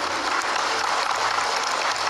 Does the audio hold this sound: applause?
yes